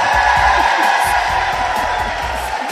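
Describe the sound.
A live audience gathered for a talk with a Food Network star cheers, a loud, steady roar of voices and whoops that stays even across the whole moment.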